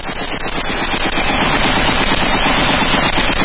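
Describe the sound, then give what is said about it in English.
Machine gun fire from a played video, a loud, dense and continuous stream of rapid automatic shots with no break and no talk. “It's kind of the theme of his videos is lots of machine gun fire, auto fire. Machine gun fire and profanity.”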